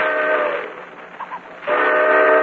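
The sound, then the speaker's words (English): A railroad train packed with passengers and baggage sounds its whistle in two long, loud harmonic blasts, separated by a quieter gap with a couple of brief, faint tones. “shoved into a railroad train jammed with passengers and baggage. She's been on that train now for almost 2 hours.”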